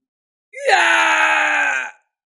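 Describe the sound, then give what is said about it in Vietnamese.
A man's single drawn-out scream of pain as a golden war spear pierces him, rising sharply at the start, then holding a loud, harmonic cry for about one and a half seconds before cutting off. “Kim Xích Tiêu hét thảm, bị hoàng kim chiến mâu xuyên thấu kéo đi bay ra ngàn trượng”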